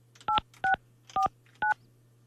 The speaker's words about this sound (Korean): 이분 한번 전화 연결 한번 해볼게요.